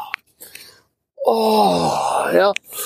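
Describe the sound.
A voice imitates a groan: one long, drawn-out moan with a wavering, slightly sliding pitch, held for over a second. A few short soft breathy sounds come before it.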